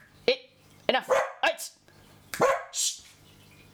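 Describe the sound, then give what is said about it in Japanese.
A dog barks outside at a car that has stopped. Sharp, loud barks come in two quick clusters with a brief gap between them, some short and yelping, others longer and rougher. “犬がちょっとね外でね、車が止まったのでワンワン言ってるんです、すいません。”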